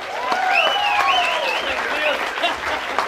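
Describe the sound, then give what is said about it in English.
Audience applause welcoming a singer onto the stage at a Father's Day show: a steady, full clatter of many hands, with voices rising above the clapping throughout. “Let's give him a nice hand here today, Mac Wiseman.”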